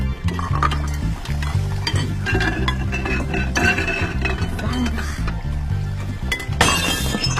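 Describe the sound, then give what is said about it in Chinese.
Dishes being washed, with many sharp clinks and clatters of crockery and cutlery in a busy, loud, continuous jumble. “快，先刷碗。”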